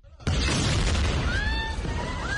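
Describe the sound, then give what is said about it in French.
A deep explosion in the courtyard of a hospital in central Gaza bursts in abruptly and loud, followed by a sustained low rumble; a helicopter passes overhead, with thin wavering tones sliding through the upper range as the boom lingers. “Un hélicoptère au-dessus, une explosion dans la cour de l'hôpital des martyrs d'Al-Aqsa, dans le centre de la bande de Gaza.”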